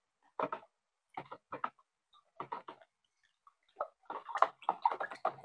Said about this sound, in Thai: ส่วนสารส้มแล้วก็คนจนกว่าเขาจะละลายเลยค่ะสารส้ม